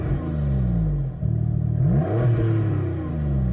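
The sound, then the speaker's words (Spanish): Car engine of a 500-horsepower all-wheel-drive car revving hard, a loud continuous growl whose pitch climbs sharply midway through, then settles into a steady high roar. “arranca el motor y pisa el acelerador”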